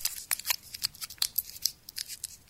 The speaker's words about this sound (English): Here she is unwrapping a starburst.